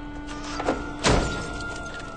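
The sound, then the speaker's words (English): A car door shuts with a dull thud after a parked car's low engine hum in a deserted alley between warehouse buildings. A softer knock comes just before the thud. “He parks his car, gets out, and looks up.”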